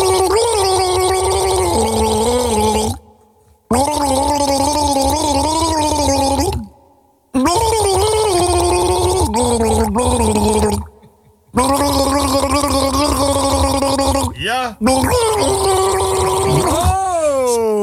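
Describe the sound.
A person gargles a tune, making loud bubbling, wavering pitched tones that follow a melody. The gargling comes in four long phrases split by brief silent breaks, with some sliding pitch near the end.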